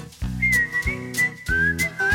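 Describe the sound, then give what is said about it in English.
A whistled tune carries a bright, steady melody over upbeat instrumental backing, the whistle holding sustained notes above a rhythmic pulse of chords for the short stretch. “I'm in the mood for whistling, whistling along with you.”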